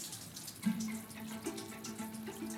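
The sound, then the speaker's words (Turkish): Tap water runs into a sink while something is washed with soap, a faint steady flow broken by a few small splashes and clinks. “İyi yıka, iyice sabunluyorsun değil mi? Evet. Onu bir daha sabunlayıver.”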